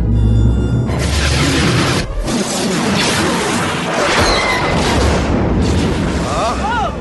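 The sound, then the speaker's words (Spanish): A space station superlaser fires in a sci-fi blast effect: a loud, deep boom opens, followed by several seconds of dense roaring rumble that stays heavy and sustained to the end. “Ese disparo proviene de la Estrella de la Muerte. ¡Está en funcionamiento!”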